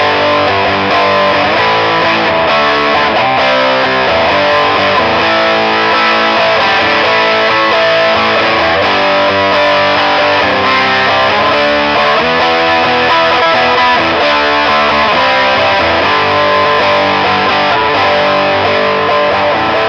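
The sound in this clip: Electric guitar played through a humbucker pickup into a distortion amp, giving a loud, dense, heavily saturated tone that sustains continuously with no talking.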